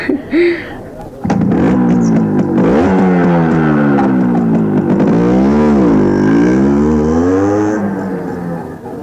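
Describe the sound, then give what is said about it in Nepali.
A motorcycle engine runs loudly as the bike is ridden and then parked, its pitch wavering up and down through several revs before easing off near the end. “Motorcycle यहीँ राखौँ”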